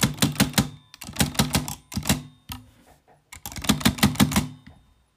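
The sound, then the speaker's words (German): A typewriter's space bar is pressed over and over to shift the carriage back toward the middle: many rapid, loud mechanical clicks in quick bursts separated by short pauses. “deshalb muss ich jetzt ganz oft die Leertaste drücken”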